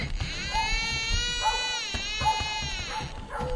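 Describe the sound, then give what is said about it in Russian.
A child's cry breaks the silence of the night: sustained, wailing harmonic cries that waver and dip in pitch, continuing almost without pause over a low background rumble. “Вдруг тишину ночи нарушил крик ребенка.”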